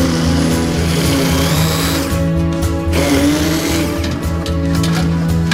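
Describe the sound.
A blender whirs as it purées asparagus, a steady, loud motor drone with a slight shift in pitch partway through, running alone without talk.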